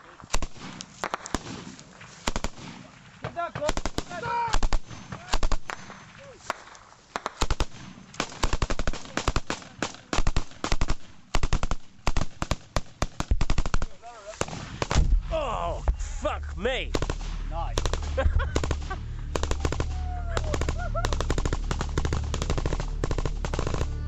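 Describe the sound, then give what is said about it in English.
Machine guns and rifles fire in a gun battle involving a Royal Irish battalion in Helmand, Afghanistan: many sharp, loud bursts of automatic fire, then a steadier low rumble with scattered shots continuing to the end. “And then it kicks off. The gun battle will last 5 minutes.”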